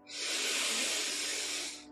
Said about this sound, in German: Atme einmal tief ein, schließ deine Augen. Und atme durch den Mund aus.